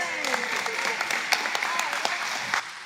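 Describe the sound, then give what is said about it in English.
A church audience applauding during a service. Crisp individual claps stand out through a busy wash of clapping, and voices sound underneath for the length of the short clip. “Can you give him one more good hand?”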